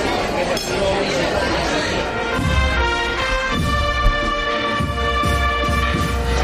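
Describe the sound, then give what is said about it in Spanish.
Street terrace ambience in Spain during the Easter holidays, with people eating and drinking: a steady murmur of many voices chatting, with glasses clinking and cutlery rattling throughout. “El de la gente que está disfrutando de sus vacaciones, comiendo, tomando algo con sus amigos o familia”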